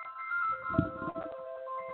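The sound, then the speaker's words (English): A mobile phone rings with a faint, melodic electronic ringtone of repeated sustained tones. “Oh, sorry about that, my phone.”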